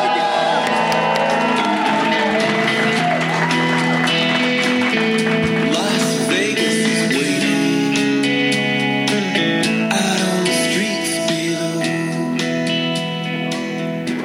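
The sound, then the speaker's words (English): Live audience cheering, whooping and shouting fills the D Las Vegas showroom, a loud, continuous crowd roar that holds steady throughout, with music mixed in. “Here we are at the D Las Vegas showroom, doing our show live for this fine audience of Vegas nerds.”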